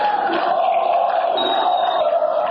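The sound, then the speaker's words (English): Congregation in a dark, cavernous church cheering during the Holy Fire ceremony as the flame spreads among thousands of worshippers holding candles, a dense, sustained roar of many voices at a loud, even level. “The congregation cheered as the flame spread to thousands of worshipers holding candles and illuminated the dark, cavernous church.”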